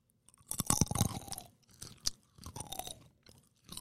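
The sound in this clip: Crunchy almonds being chewed close up, with a few irregular bursts of crisp crunching separated by softer mouth sounds and short pauses, fairly faint, with no talk.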